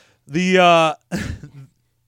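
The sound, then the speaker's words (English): A person choking and clearing their throat: a strained, voiced grunt, then a short pause and a rough, gravelly throat-clearing burst that trails off. “I just choked on my own throat.”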